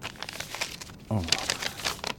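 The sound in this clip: A sheet of paper crinkles as it is unfolded and handled, a note left behind for someone to read: a brief stretch of voice gives way to a burst of dry rustling and crackling that lasts about a second.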